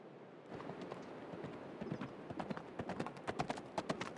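Horse hooves clip-clopping in a rhythmic run of sharp knocks that starts after a short silence and grows louder and more distinct toward the end.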